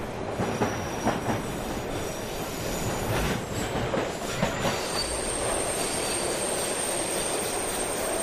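A metro train runs on rebuilt tracks in a flood-ravaged area of Valencia, with a continuous loud rumble of wheels on rails and high, sustained wheel squeal throughout.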